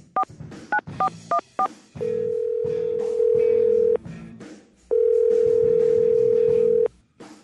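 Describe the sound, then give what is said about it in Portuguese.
Telephone tones as a call is placed: a quick run of short keypad beeps, then two long, steady, loud tones separated by a brief gap. “Vamos lá, ligar aqui pro Paulo McDonald. Vamos ver se ele atende.”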